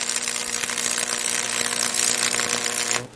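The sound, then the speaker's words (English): Welding fuses two pieces of steel together in a steady, dense crackling hiss that holds evenly throughout before cutting off abruptly at the end. “If you look at me, if you look at the weld, I'm actually trying to fuse both of those pieces of steel together.”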